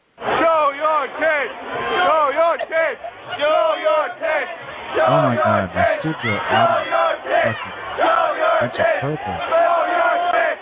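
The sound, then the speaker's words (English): A rowdy studio audience shouts and cheers, many voices yelling at once in rough, surging bursts that rise and drop repeatedly for about ten seconds, loud and chaotic throughout. “I get the worst people off the street for my studio audience. They're a bunch of drunk, perverted bastards.”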